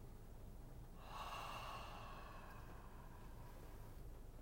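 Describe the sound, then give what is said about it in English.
A slow, deep breath drawn in and let out, soft and airy, rising gently for a couple of seconds over a steady low hiss, with no talking. “Again, draw that breath in. And out.”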